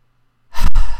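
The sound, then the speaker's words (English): A single deep breath, a loud breathy rush that begins midway after near silence and carries to the end with a brief dip partway through. “Deep breath.”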